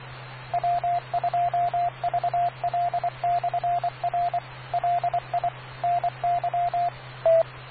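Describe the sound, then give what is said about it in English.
Amateur radio transmission beeps sound in a rapid run of short and longer tones, all at one steady pitch, over a constant low hum. “That made sure I got the beep, KQPS”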